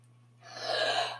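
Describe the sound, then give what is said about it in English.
A single deep breath drawn in, a soft rush of air that swells over about a second and then tails off, heard alone over a steady low electrical hum. “Get ready for this deep breath.”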